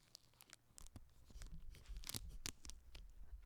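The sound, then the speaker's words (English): A soft matte frosted plastic bag is torn open right at the mic, with a run of crisp crackling tears and rustles that grow busier in the middle and then ease off. “It's a soft matte frosted plastic. Ooh. You can kind of see it here, but it's just, I'm going to open it. This is the sound of me opening it.”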